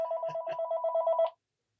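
Telephone ringing, a short, fairly faint electronic trill of rapidly pulsing tones that stops abruptly, followed by silence.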